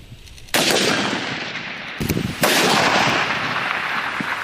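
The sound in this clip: Gunfire from live-fire shooting during an army brigade's multi-event military skills competition and assessment. Dense, loud crackling bursts of rapid firing start abruptly, briefly ease, then surge again and continue to the end, with no voices.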